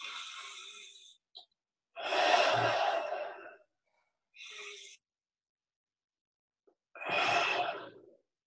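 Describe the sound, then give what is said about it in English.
Slow, deep breathing into the lower abdomen: a few long, airy breaths, each a soft rushing of air, separated by pauses of near silence. “I'll just breathe into my lower abdomen.”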